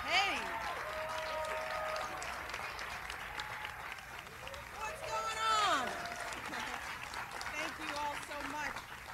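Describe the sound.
Applause and cheering from the crowd at Michelle Obama's farewell speech at the White House, a sustained wash of clapping with voices calling out over it.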